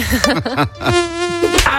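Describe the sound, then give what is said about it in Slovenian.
Mosquito buzzing in an insect repellent advertisement, a loud whining drone that wavers up and down in pitch over several quick pulses before holding a steadier tone. “Za boj proti komarjem obstaja boljši način.”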